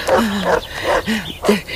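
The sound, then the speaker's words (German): Barking from a huge dog comes in several deep, loud bursts, each a rough growling bark with short gaps between them. “Das klingt so, als käme das Bellen näher. Himmel, was für ein Riesenvieh.”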